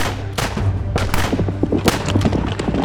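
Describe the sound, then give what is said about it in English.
Gunfire from several armed people shooting at fleeing targets, a dense run of many sharp cracks and booming thuds fired in quick, irregular succession, loud throughout. “Everyone with a gun, come with me! They can't get away! Shoot them! Shoot them down!”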